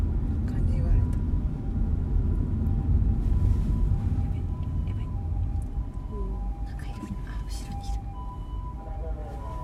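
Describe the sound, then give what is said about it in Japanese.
An ambulance siren passes outside a car, a faint wavering tone held over heavy, constant low engine and road rumble, with murmured voices inside the vehicle. “なんか今日救急車多いわ。”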